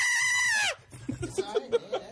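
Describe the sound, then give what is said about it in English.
A voice imitates a high, shrill scream: one loud, sustained cry under a second long that drops sharply in pitch at its end, followed by quieter speech. “It's quite a little scream you got right there.”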